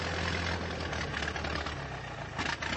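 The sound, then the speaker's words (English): An early motor carriage engine runs with a rough, steady idle, a continuous mid-to-low rumble with a slight uneven knock and no voices over it. “What's that? Huh? Sounds like a motor carriage. It is. Look, it's the same as yours.”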